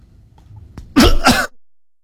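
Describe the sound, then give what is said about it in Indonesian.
A sharp, loud double cough from one person bursts out suddenly after near-silence, then fades. “aduh sampai batuk ya ini.”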